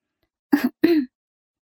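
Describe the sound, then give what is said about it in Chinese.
A woman's two light, short coughs come in quick succession, each a brief voiced burst, with silence before and after. “黄玉梅又轻咳了两声。”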